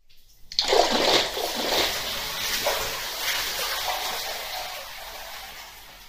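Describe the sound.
Hot bath water splashes in a loud burst, then keeps sloshing and trickling with a broad hiss that slowly fades over several seconds, with no voices.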